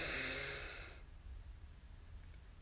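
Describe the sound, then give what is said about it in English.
A single deep breath drawn in through the nose during a guided breathing exercise after waking, heard as a soft, airy rush of breath noise that fades out within about a second, followed by near silence with a low rumble. “So let's breathe in together.”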